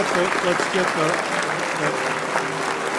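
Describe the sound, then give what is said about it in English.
Audience applause at an anniversary gala: a steady, dense clatter of clapping that continues throughout, with voices talking over it. “Please join me in a round of applause for Keith Alexander.”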